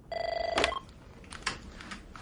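Ringing tone of an outgoing phone call to a police complaints line, a short burst of fast-warbling electronic ring lasting about half a second, followed by a click and a faint, low, noisy hiss.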